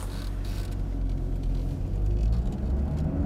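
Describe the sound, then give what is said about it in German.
A car's engine starts up and pulls away, a low, steady rumble that swells slightly louder as the vehicle drives off, with no talk over it. “Vater fährt das Auto los.”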